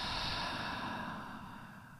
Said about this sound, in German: Noch zweimal so tief einatmen, tief ausatmen.